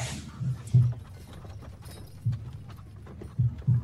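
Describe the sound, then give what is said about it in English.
Horse hooves clopping, a few irregular low thuds spaced across the stretch, moderately loud and heard alone without voices. “Some of the children run after your horse that goes impossibly fast.”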